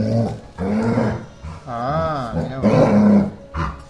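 A dog growls in a continuous low, rough rumble with wavering tones that rise and sink, broken by a few short pauses.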